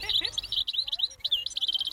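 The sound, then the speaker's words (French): European goldfinch song: rapid, bright twittering chirps and liquid trills in a continuous high-pitched stream, fairly loud, with no talk over it. “Alors, c'est quoi cet oiseau ? Cet oiseau est chardonneret élégant.”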